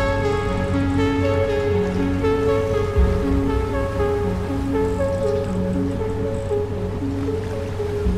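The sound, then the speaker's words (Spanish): Sea waves wash in a steady, unbroken hiss beneath sustained musical tones, holding an even loudness throughout with no talking. “cerrando los ojos, disfruto de los sonidos y las sensaciones que me regala el mar.”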